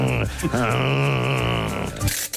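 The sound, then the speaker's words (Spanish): A voice imitates the creaky ratcheting pull of a car handbrake with a sustained, groaning, strained tone that wavers up and down in pitch and stays loud for about two seconds. “Uy, eso que ha sonado, ¿qué ha sido? La carranca. He sido yo, perdón, el freno de mano, ¿eh?”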